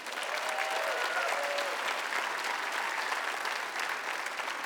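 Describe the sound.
Applause at Life Church welcoming a guest speaker: dense, steady clapping that holds at an even level from start to finish, with a faint murmur of the crowd.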